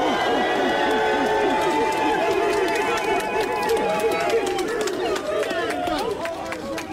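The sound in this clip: A rally crowd of many voices shouts and chants together, loud and sustained for the full seven seconds, with a slight drop in level near the end.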